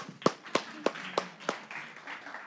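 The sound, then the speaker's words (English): Clapping at a church worship service: five sharp, evenly spaced claps, fairly soft, trailing off into a faint, diffuse wash of noise. “Well, now we can clap.”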